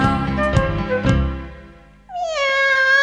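A female cat in a kitchen gives a single clear, loud meow after a stretch of music with light percussive beats, the meow's tone slipping slightly downward before holding steady.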